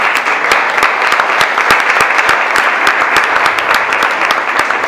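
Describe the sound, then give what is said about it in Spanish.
An audience applauds a speaker being welcomed at a talk. Loud, dense clapping runs at a constant level for the whole stretch, with sharp individual hand claps standing out in the mass. “Una alegría, así que le pido un aplauso para ella.”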